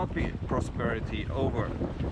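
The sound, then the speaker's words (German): Greenpeace inflatable boats out on the sea, with continuous rushing wind and water noise and buffeting under a talking voice. “Können Sie bitte wiederholen, was für ein Boot sind Sie? Wir sind Schlauchboote von Greenpeace.”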